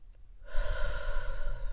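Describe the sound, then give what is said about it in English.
A deep breath drawn in during a mindfulness exercise: after a brief quiet moment, a rushing, airy inhale begins and continues steadily to the end. “I simply just take 3 deep breaths, just like this.”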